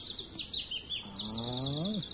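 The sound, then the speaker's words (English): Birdsong, a papa bird in a children's play-house game, with bright, high chirps and twittering trills throughout, joined midway by a lower, drawn-out warbling call that rises and then drops. “Listen to the pretty birdie sing.”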